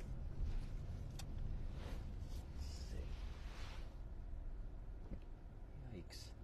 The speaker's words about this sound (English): Boy, it is a lot of traffic.